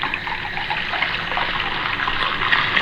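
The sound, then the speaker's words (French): Water being poured into a mixed drink: a steady, splashing trickle that runs evenly and continuously at moderate loudness, with no voices over it. “Un bon tiers de piquant. Tu vois? Et alors, un grand tiers d'eau.”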